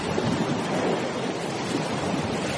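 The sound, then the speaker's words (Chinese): Sea waves surging, heard as a continuous loud rushing roar of churning water that holds steady with no distinct breaks. “小哪吒在海里这么一洗澡，那东海龙王的水晶宫被摇晃得咯咯作响啊。”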